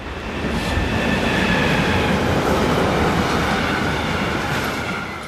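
Train passing on a Rhine valley railway line: a heavy rumbling roar swells in, holds steady with rapid wheel clatter and a faint high squeal, then eases off toward the end.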